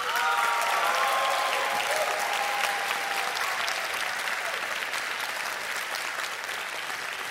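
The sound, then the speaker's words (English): An audience applauds in Torrey Gray Auditorium at Moody Bible Institute in Chicago. Dense, steady clapping holds at an even level throughout and eases slightly toward the end. “Brian Dolan and Nancy Cain, can we get a hand for them?”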